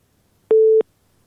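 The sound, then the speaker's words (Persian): A single busy-signal beep, a steady mid-pitched electronic tone lasting about a third of a second, after a listener's phone call from Helmand into a radio program dropped. Near silence surrounds it. “شنونده ما از هلمند تماسشان قطع شد”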